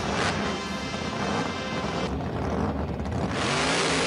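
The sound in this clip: A high-horsepower car engine revving hard during testing, a loud, continuous roar with a steady whining tone that eases briefly midway, then surges back up to full volume.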